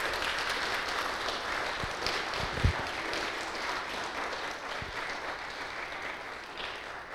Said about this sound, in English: So if you would, just please give them a good round of a welcome here this morning.